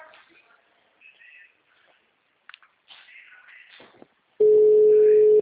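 Telephone ringback tone while a call connects: one steady, loud tone about a second long, after a stretch of faint rustling and background sounds.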